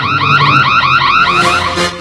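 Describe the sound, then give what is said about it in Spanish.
An alarm goes off during a bingo game with a loud electronic warble, a rapidly repeating rising tone cycling several times a second without pause. “se enciende la alarma”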